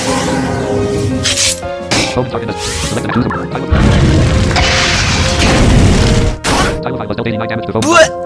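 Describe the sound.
A Shadow Bomb attack explodes in a video game, with several loud, booming bursts crashing over sustained musical tones and game effects.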